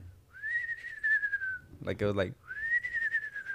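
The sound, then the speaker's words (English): A person whistles with a slight vibrato, imitating a whistle they once heard: two long, high, wavering notes separated by a short vocal sound. “But the whistle was like, I don't know if I could whistle. It was like,”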